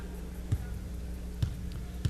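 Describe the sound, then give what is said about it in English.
A basketball dribbled three times by a player at the free-throw line in a women's college game, Lehigh at South Dakota State. Each bounce is a low, evenly spaced thump over a steady arena hum. “Second one from Burkhart on the way with a couple of dribbles.”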